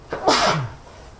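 A single sneeze: one sharp, breathy burst that swells and fades within about half a second, loud and alone with no talk.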